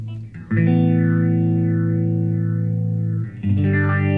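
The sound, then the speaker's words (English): A synthesizer filter sweep with the resonance turned up: a loud, sustained buzzy tone whose resonant peak glides slowly up and down in a whooshing, vowel-like wave, then briefly drops out and returns. “Go pull the resonance up so we can hear how much the sweep is. And slow the sweep down so we can... The rate.”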